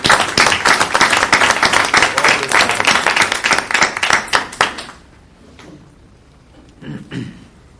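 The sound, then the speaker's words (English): An audience at a public meeting gives a round of applause: loud, dense clapping with crisp individual claps for about five seconds, then it fades quickly to near silence, with a few faint stray sounds afterward. “So how about another round of applause?”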